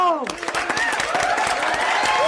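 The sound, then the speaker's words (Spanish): A studio audience applauds to welcome a chef as the day's guest on a television show, with dense, loud clapping throughout and a voice or cheer rising over it at the start. “Un aplauso de bienvenida, el abrazo ya se lo di. Un aplauso de bienvenida a nuestra querida chef Piti Otero.”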